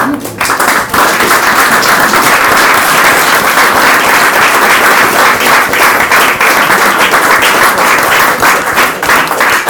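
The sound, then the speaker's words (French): Loud, dense audience applause at a talk, a steady wash of many hands clapping that holds its level throughout, with no voices over it. “je pense qu'on peut d'abord l'applaudir.”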